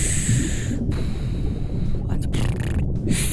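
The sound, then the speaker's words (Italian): A voice imitates a scuba regulator breathing underwater, producing continuous rasping, hissing breath noise with a rough, snorting texture, and talk mixed in. “Che è il rumore dell'erogatore? Quando vai sott'acqua, ah, questo okay. rumore non lo senti? Senti. Ecco, respiri con la bocca.”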